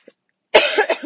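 A cough from a tickle in the throat: one loud, harsh, raspy burst that rasps on briefly after a short silence.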